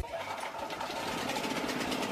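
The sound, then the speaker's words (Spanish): An electric power generator runs with a steady, rattling engine drone and fast mechanical chatter, holding at an even, moderate level throughout. “Grupo Electrógeno. Ruido y luz versus silencio y oscuridad.”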